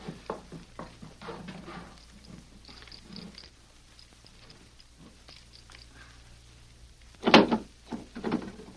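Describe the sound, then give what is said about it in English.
Metallic clicking and rattling of a safe being opened: a run of faint, scattered clicks, then a louder clunk and rattle near the end. “Now, open that safe.”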